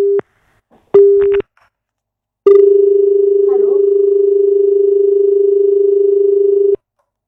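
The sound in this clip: Telephone line tones as an incoming caller is connected to a call-in show: two short steady beeps, then a long continuous mid-pitched tone of about four seconds that cuts off abruptly.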